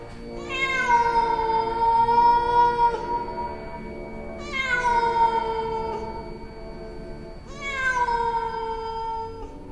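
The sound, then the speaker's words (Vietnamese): A cat meows at night in three long, drawn-out wailing calls spaced a few seconds apart. Each call is loud, rich in harmonics and eases slightly downward in pitch as it fades. “Trong đêm tối, cái tiếng kêu của nó vang lên như là tiếng mèo kêu vậy.”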